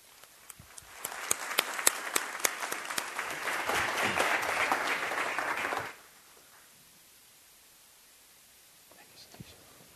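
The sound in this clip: Audience applause greets a professor arriving for an on-stage conversation, swelling in at about one second into dense, steady clapping that holds for several seconds and then cuts off abruptly, leaving near silence.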